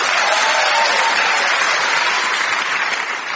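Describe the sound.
A studio audience applauds as guests are welcomed onto a comedy panel show. The clapping is loud and dense, a steady roar that eases slightly at the very end.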